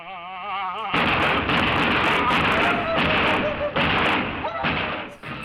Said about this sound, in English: Yeah, I didn't think that we should have been shooting. While we are sponsored by the NRA, please remember this is a gun-free zone.